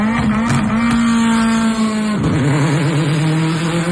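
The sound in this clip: Rallycross race cars rev and accelerate, a loud, continuous engine note whose pitch climbs, holds, then drops sharply about halfway and turns wavering as the revs shift.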